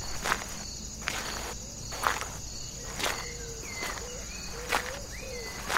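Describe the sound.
Footsteps climbing a hill outdoors: slow, evenly spaced crunching steps over a steady high chirring of insects, with a few short chirping calls in between.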